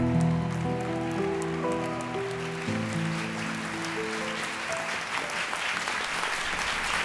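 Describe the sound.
Audience applause, a dense crackling wash of clapping that builds as sustained musical tones fade away during the first few seconds, then carries on steadily alone.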